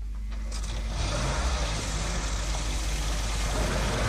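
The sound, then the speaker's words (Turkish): Car engine running with a steady low rumble and broad mechanical hiss, growing slightly louder after the first second and holding even to the end; no voices. “Ben arabayı çalıştırıyorum.”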